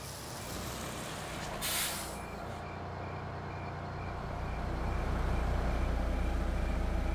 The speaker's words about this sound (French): Quand le bus de la police arrive à l'hôtel, il fait déjà noir.